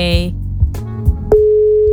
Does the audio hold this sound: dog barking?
no